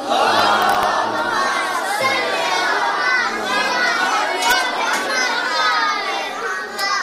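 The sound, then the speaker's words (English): Many voices at a school appreciation day for teachers loudly recite salawat together, a dense and energetic chorus that includes children's voices and continues throughout. “Let us all join together and honor them with a loud salawat.”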